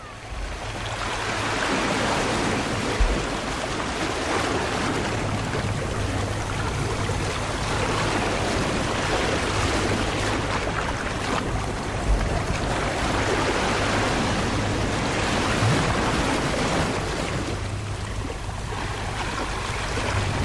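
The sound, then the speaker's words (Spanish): Sea waves break on a beach in Málaga in a loud, continuous, churning roar of surf and rushing water. The sound holds steady from start to finish with no voices. “Estamos en la playa y no nos podemos ir de aquí sin escuchar a fondo el mar.”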